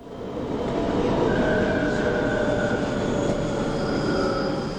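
A train pulling into a station, heard as a steady rumbling roar with thin, high wheel squeals drawn out over it. It swells in at the start and eases slightly toward the end.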